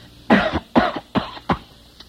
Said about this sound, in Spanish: Tengo que toser más duro. Claro, chico. Hombre, para que parezca una bronquita